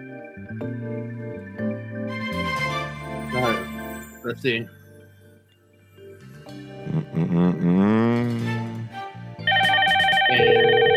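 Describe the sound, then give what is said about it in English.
A telephone rings near the end, a loud, steady electronic ring with bright stacked tones, after a stretch of voices and other tonal sounds. “Just dial that number for me. I should have tested it before the show, but, you know, make sure it's actually ringing.”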